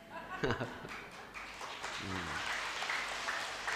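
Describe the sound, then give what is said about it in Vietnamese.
An elderly audience at a Buddhist dharma talk claps to congratulate themselves. A monk's voice speaks briefly, then a steady, moderate wash of clapping follows and continues to the end. “Vỗ tay chúc mừng mình đi. Già mà còn vỗ tay được là khỏe.”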